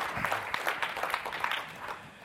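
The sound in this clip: Faint audience applause welcoming a speaker to the stage, a brief burst of many hands clapping that thins out toward the end.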